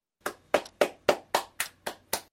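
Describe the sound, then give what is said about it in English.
Hands clapping eight times in a steady, even rhythm, each clap a sharp, bright slap with a quick decay, moderately loud and alone with no voices. “Clap your hands. Daisy clapped her hands.”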